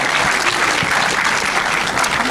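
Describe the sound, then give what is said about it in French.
Loud audience applause at an evening film screening as a guest speaker is welcomed to the stage, a dense, sustained roar of clapping hands at a constant level throughout. “Je vous demande d'applaudir Xavier Leherpeur”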